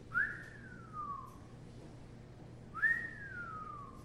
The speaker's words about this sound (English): A whistler sounds like this.